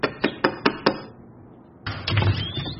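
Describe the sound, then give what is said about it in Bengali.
Knocking on a door: four sharp, quick raps in an even rhythm, followed by a pause and then a stretch of louder, rougher noise. “দ্রুত পদে ব্যোমকেশ ওপরে উঠে গিয়ে ফণির দরজায় টোকা মারল।”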